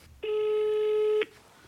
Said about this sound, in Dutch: Maar laten we er eerst even bellen.